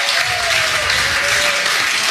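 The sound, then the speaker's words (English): A room of Florida Gators fans gives a big round of applause for Ben Shelton, U.S. Open finalist, dense and loud clapping that holds steady for the whole two seconds. “I would love to make a lot of noise in this room for a Gator who did us all proud over the weekend up in New York City. How about a big round of applause for Ben Shelton, finalist of the U.S. Open?”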